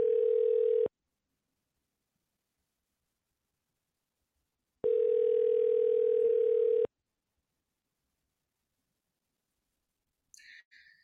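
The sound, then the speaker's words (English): A telephone ringing tone: a steady, mid-pitched electronic tone in two bursts. The first is about one second long and the second about two seconds, separated by silence, with a brief faint click at the end. “wake up and answer the phone, please.”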